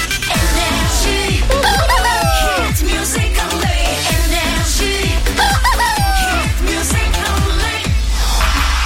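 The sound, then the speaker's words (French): A rooster crowing over loud, rhythmic music with a steady beat, a couple of prominent crows rising out of the mix, with no talking. “And you're listening to le coq, s'il vous plaît.”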